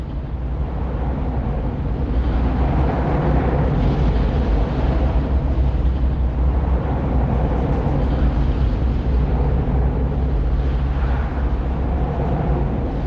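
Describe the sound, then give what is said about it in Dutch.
Daily traffic driving over steel motorway bridges in the Netherlands gives a heavy, continuous roar and low rumble. It stays loud and steady throughout, with no clear breaks or separate passing vehicles. “wat je hier hoort is eigenlijk het dagelijks verkeer wat over de stalen bruggen in Nederland rijden.”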